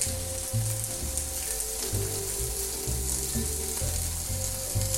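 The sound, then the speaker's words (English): Food browning in a hot frying pan, cooked in batches without overcrowding: a steady, dense sizzle and crackle with no pause, fairly loud, with no talking. “You don't want to overcrowd the pan. And after I put this down, you can't see what I'm doing, so I'll just sort of tell you that I've laid it down and I'm leaving it down.”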